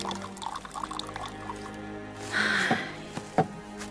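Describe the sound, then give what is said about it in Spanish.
Water being poured into two glasses, a brief splashing pour rising out of a quiet background, followed by two sharp glass-like clinks. “Sirve 2 vasos de agua.”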